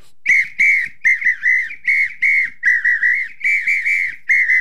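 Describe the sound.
An apito, a samba whistle, blown in quick rhythmic blasts: many short, shrill, pitched toots in a steady pattern, some with a slight warbling bend, loud and alone.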